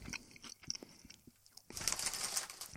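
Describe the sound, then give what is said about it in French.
Crunching of sour cream and onion potato chips being bitten and chewed, faint crisp snaps at first, then a louder, denser burst of crackling crunches toward the end. “Crème sûre et oignon. Mais ça goûte de chip plain.”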